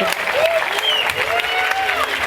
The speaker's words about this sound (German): Okay, dann danke für euren Einsatz. Einen Applaus.